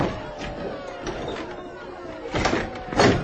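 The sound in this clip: A door being opened, with a couple of scraping, rattling bursts toward the end over a faint murmur of voices.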